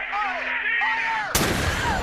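Gunfire breaks in as a single loud, sharp blast after sweeping, gliding tones, then fades into a crackling noisy decay.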